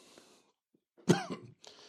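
A man sneezes once, a sudden loud burst that quickly trails off, standing alone against near silence with faint rustling just before and after.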